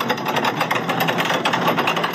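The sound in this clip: A steady, busy mechanical drone with a fast rattling pulse comes from the running engine of heavy locomotives weighing tens of tonnes as they couple together. It holds an even level throughout with no clear clank of the coupling.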